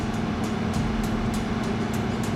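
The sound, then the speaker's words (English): An old gasoline car engine drones steadily in a low, rough rumble. A faint, regular pulsing ticks above it throughout, and no one speaks. “Hey, why are you using one of these old gasoline cars?”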